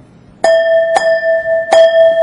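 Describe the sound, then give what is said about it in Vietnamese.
Three strikes of a bell in a village communal house shrine. Each strike has a sharp metallic attack and rings into a steady, sustained tone that carries over into the next strike, with no voices. “đây là chuông trong đình, trong miễu, không phải chuông chùa, phải không?”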